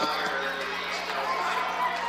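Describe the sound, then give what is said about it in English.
A vocal crowd fills a high school basketball game involving East Mills, its chatter and cheering blending into a steady, dense roar that holds at an even loudness throughout, with no single voice standing out. “Great crowd here tonight for both sides. Good sized crowds, but vocal crowds here tonight also. Yeah, they didn't come here to sit on their hands.”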